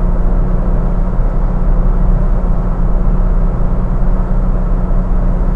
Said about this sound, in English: Ah, this is a nice car. 4,000 RPM, 70 mile an hour dinger. Fourth gear, fifth gear.